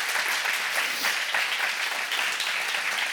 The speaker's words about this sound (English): Give them a big hand today, would you please?